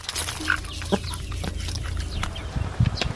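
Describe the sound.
Chickens cluck in a garden as they are fed in the morning, giving several short, fairly loud clucks over a busy, noisy background with no talking.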